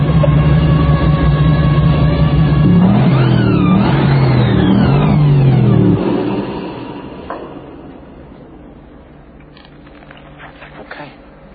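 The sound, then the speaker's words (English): A supercharged 600-horsepower car engine revs hard, its roar sweeping up and down in pitch for about six seconds before dropping away to a lower, fading rumble. “600 horsepower through the wheel. With the blower. The blower. The blower.”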